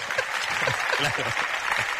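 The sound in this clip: Audience applause at a lively food discussion in Alicante: dense, steady clapping that runs through the whole moment while people talk over it.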